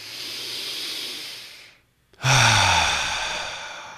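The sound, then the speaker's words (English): Deep breathing during a guided breathing exercise: a long airy breath through the nose, a brief silent pause, then a louder, sighing rush of breath that fades gradually. “So go ahead and just take a big breath in through your nose.”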